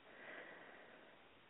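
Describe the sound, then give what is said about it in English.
A long, slow breath in during a guided heart-centred breathing exercise, a faint, soft, steady airy hiss that runs unbroken through the moment. “let's take a nice, long, easy breath in, connecting with our hearts.”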